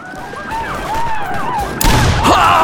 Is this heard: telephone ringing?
no